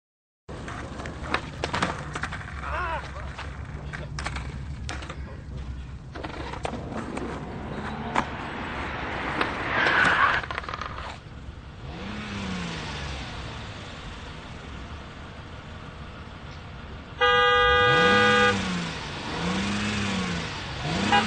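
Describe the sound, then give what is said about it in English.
A vehicle's engine revs and accelerates over about twenty seconds, its pitch wavering up and down, with scattered clattering and a louder burst near the end. “I just would like to show you this little bitty clip on impatience with somebody who's driving a vehicle.”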